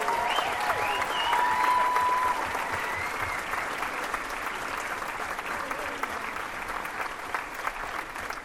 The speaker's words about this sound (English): Let's give it up for all these wonderful people here.